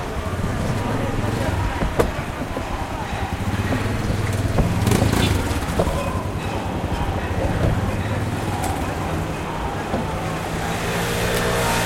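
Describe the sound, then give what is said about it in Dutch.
A procession of police cars drives past on a city street near the Amstel, giving a steady wash of engine and road noise with a few sharp knocks, while voices murmur underneath. “Er rijden nu een stoet politieauto's voorbij.”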